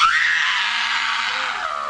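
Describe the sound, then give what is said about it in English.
A woman screams in a theatrical stage performance where a character is being sacrificed. The scream is loud, shrill and sustained for about two seconds, easing slightly toward the end. “The scream belongs to Justina Machado from HBO's 6 Feet Under.”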